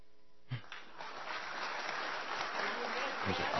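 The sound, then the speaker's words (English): An audience clapping, breaking in after a brief silence and continuing as a steady, dense patter of many hands, moderately faint. “You want them clapping quickly. They weren't clapping nearly quickly enough for you.”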